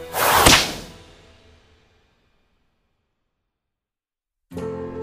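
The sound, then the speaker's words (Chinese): A flaming whip lashing out at a fire phoenix, a single loud swishing crack that decays into silence, followed near the end by a sudden tonal sound. “一根燃火的长鞭和一道青红阻挡了凤凰的身形。商井救起昭元，林京在一鞭子向火凤甩去”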